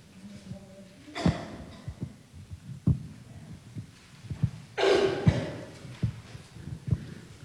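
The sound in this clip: A soft heartbeat plays as a steady series of many low, muffled thumps, with a couple of brief breathy rustling bursts over it.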